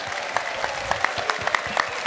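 Audience applause welcomes a singer onto the stage at a live show: a steady patter of many hands with crisp individual claps popping out at an irregular rhythm, moderately loud and without talk.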